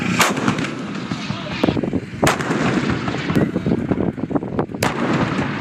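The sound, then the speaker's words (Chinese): Artillery batteries fire at ground targets during a military exercise, with repeated heavy, sharp blasts punching through a continuous deep rumble of further firing. “各炮兵群对任务区域的目标实施火力打击”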